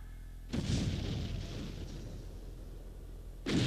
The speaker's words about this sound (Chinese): 把所有人集中在2个牢房里，加上机枪，扫射。